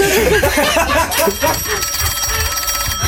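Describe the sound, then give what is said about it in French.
A telephone rings with a jangling metallic bell trill that starts partway through and continues steadily to the end, following busier mixed sound at the start. “Il y a Jean-Luc Reichmann au téléphone. Vas-y, fais sonner.”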